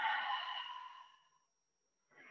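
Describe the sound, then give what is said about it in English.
A person breathes out deeply during a guided breathing exercise, a long, soft airy exhalation that fades away over about a second and a half, then brief silence before another quiet breath begins. “fill your stomach, chest, everything with that fresh, clean air. And then breathe out again.”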